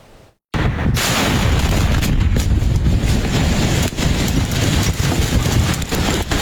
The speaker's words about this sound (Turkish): Patlama sesleri ard arda yükseldi.